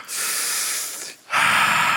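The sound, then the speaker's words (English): A group of people in a standing stretch drawing a deep breath in together: a broad, airy rush lasting about a second, a brief near-silent gap, then a second, louder airy rush that holds to the end. “Let's lift to the sky, stretch. Take a deep breath in.”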